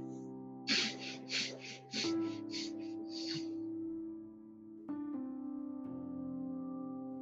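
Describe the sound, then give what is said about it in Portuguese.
A breathing exercise of quick, sharp sniffs through the nose comes in rapid bursts, then a longer breath, all over a soft, sustained musical drone. “São quatro respirações curtas pelo nariz e uma longa. E a gente então repete esse ciclo quatro vezes.”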